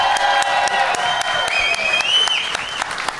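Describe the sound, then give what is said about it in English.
A comedy festival audience gives loud, continuous applause with some cheering for guest actor Richard Kind, and the clapping stays full and steady throughout. “do me a favor, folks. A big hand for Mr. Richard Kind.”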